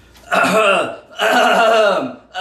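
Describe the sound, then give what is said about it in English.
A person clearing their throat in two long, raspy, voiced rumbles separated by a short pause, with the start of a third at the very end, loud and without speech. “okay, throat cleared.”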